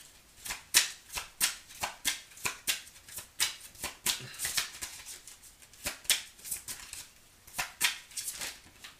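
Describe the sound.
Tarot cards are shuffled by hand in many quick, papery riffles and snaps. The bursts come in an uneven rhythm, clear and moderately loud, with no talking.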